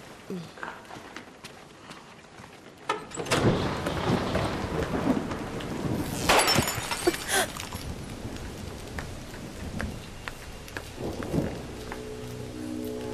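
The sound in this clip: Rain with thunder: quiet at first, then a heavy rumble breaks in abruptly and builds to loud rolling peaks over a steady hiss of falling rain that continues to the end.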